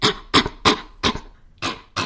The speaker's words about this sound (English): And the irritated, cough-like bark that serves as a warning.